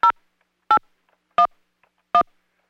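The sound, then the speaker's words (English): Four short touch-tone keypad beeps entering a passcode on a Sprint PCS voicemail line, each a brief dual-tone burst at even intervals, loud and alone with silence between. “Please enter your passcode, then press pound.”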